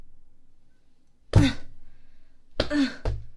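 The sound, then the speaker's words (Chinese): Harsh coughs and throat-clearing from a person struggling for breath. One rough burst comes first, then a quick pair of coughs, each short and loud against a faint background. “怎么不咳了？”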